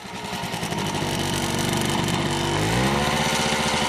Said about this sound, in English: This is the sound of a motorcycle engine that has been connected to an irrigation pump. As it accelerates, water is pumped into neatly dug-out rows of tomatoes.